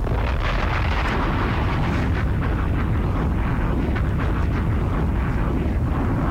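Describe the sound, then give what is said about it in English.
Bomb explosion sound effect: a loud, continuous rumbling roar of blasts with no clear gaps between them, heavy in the low end and holding at a steady level throughout. “Hit the bombs for me. One more time.”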